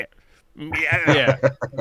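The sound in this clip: A human voice imitates a goat's bleat with a quavering, wavering cry, followed by a few short voiced bursts.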